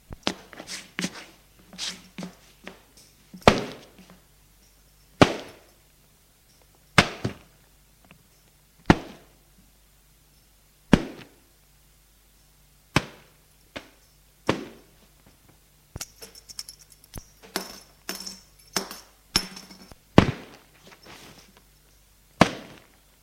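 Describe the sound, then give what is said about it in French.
Sharp cracks of a belt striking as a father beats his son, who is held bent over a table. Many hard, snapping blows land at irregular intervals, with no voices. “Le maintient penché dessus et d'une main lui donne des coups de ceinture.”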